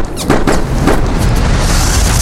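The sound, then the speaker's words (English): A gun called old Shooty is fired in an audio drama: a few sharp, booming blasts give way to a heavy, sustained rumble. “I gotta end this here with old Shooty, my trusty gun.”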